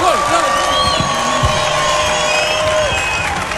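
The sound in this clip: A concert audience at a televised Croatian music evening cheers and applauds singer Petar Grašo, a loud, sustained roar of clapping mixed with high whoops and shouting voices.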